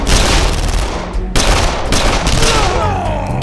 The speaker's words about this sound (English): At least 2 went down before a wild fusillade from a half-dozen automatic weapons drove her back into the cave.